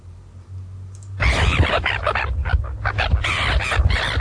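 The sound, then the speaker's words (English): Red-billed gulls (tarapunga) call in harsh, raucous squawks that burst in loudly after a quiet second and continue in a dense, rapid series. “The Tarapunga sounds like this.”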